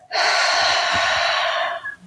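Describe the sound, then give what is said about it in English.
A single long, airy breath during a guided breathing exercise holds steady for about a second and a half, then trails off. “Let's try this together. And out. Three short breaths in. And out.”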